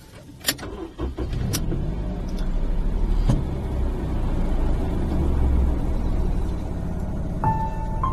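A car driving, its engine and road noise forming a steady low rumble throughout, with a few faint clicks and knocks near the start.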